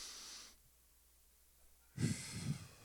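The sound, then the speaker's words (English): Breathing from an audience at a church worship service, everyone inhaling and exhaling together: a soft breathy rush at the start, a short pause, then a louder, fuller group exhale. “every day we take a breath in, we let one out.”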